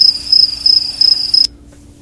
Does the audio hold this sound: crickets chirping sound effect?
yes

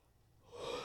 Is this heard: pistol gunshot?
no

